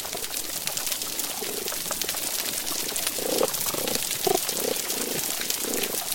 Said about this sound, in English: First of all, there's a background crackle. It sounds almost like the sound of heavy rain on the pavement. Or bacon in a pan. Or frying bacon. That was how it was first described by mariners. That's the sound of snapping shrimp.